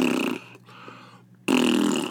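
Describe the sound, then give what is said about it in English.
A voice imitates a woman's farts while walking, likened to an old horse: two loud, raspy, buzzing bursts separated by a quieter gap of softer breathy noise. “she's just farting all the time, just farting and farting. I said, what? He goes, yeah, she's like, she sounds like some old horse, like,”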